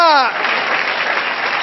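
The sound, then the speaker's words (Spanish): A voice is heard briefly, then a church audience breaks into applause for the Lord, giving a loud, dense and steady clatter of many hands. “Dar un aplauso al Señor. ¡Aleluya!”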